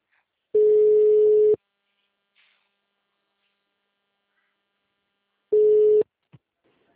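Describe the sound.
Telephone line tones during a call that dropped: two long, steady, low-pitched beeps, each about a second long and about five seconds apart, with near silence between.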